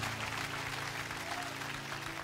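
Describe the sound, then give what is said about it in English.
Soft, continuous clapping from a church audience answering a call to applaud during a sermon, running steadily throughout over a low, sustained musical drone. “Somebody give the Lord a clap offering for the blood.”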